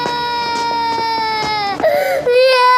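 A child cries loudly in a high, sustained wail, broken by short sobbing catches, and the pitch wavers as the crying goes on.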